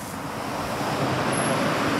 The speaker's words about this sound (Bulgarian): Добър вечер от кръстовището на улицата Гурко и цар Иван Шишман в центъра на София.